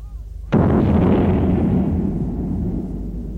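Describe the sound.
A single cannon shot fired after loading: one sharp, loud blast followed by a long, dense rumble that slowly fades over several seconds.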